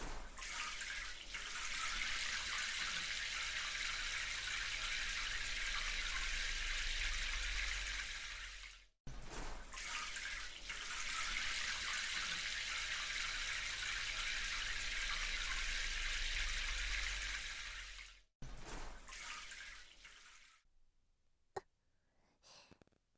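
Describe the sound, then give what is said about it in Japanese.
Hot water is poured over a person being washed, a steady rushing splash that runs in two long pours. Each pour breaks off sharply, then a shorter third stream tapers into quiet drips. “お湯をかけますね。では洗っていきます。”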